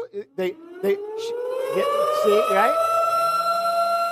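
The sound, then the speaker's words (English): Wailing warning siren like a tornado alarm, its pitch climbing and then holding as a loud, sustained tone after a few brief bursts of speech at the start. “they said when they heard like the big siren kind of sound, they remember living in the Midwest, and that's a tornado warning there.”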